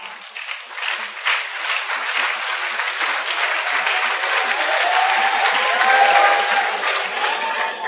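Congregation applauding at a prayer camp during a prayer marathon, many hands clapping in a dense, continuous patter that holds a steady, moderately loud level for about eight seconds.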